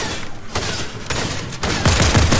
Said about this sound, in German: Ja, schießt immer mit meiner taktischen Pistole mit rein.